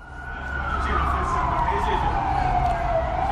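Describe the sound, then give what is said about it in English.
The siren of a police water cannon vehicle wails during an anti-government protest in Harare, Zimbabwe. A loud, continuous tone slowly glides downward in pitch over a low, steady rumble. “That is the siren of a water cannon vehicle wailing as Zimbabwean police tried to break up a protest calling for the resignation of President Robert Mugabe.”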